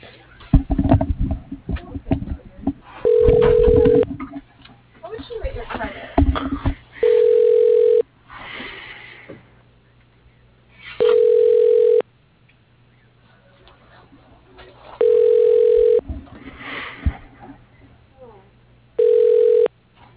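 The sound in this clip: Telephone line tones as a call transfers to voicemail: five steady, buzzing tones, each about a second long, repeat at regular intervals of roughly four seconds, with talk and line noise in the gaps.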